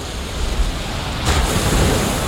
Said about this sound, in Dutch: Het is weliswaar een warme wind, maar het is een harde wind